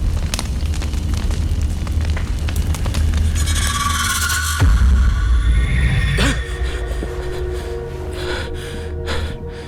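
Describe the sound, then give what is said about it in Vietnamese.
A fire burns aboard a boat as a loud, dense rushing roar with sharp crackles, broken midway by a deep whooshing burst. “tiếng của lửa cháy”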